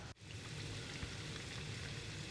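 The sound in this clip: Small pieces of food fry in hot oil until golden and crispy, giving a steady, even sizzle that runs almost without change after a brief drop at the very start. No voices are heard.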